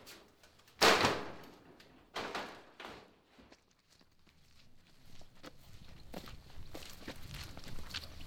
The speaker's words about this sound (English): We walk across the farm to another building.